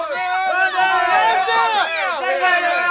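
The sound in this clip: An audience boos over a forfeit game, a dense and loud roar of many overlapping voices that holds steady for the full three seconds with only brief dips.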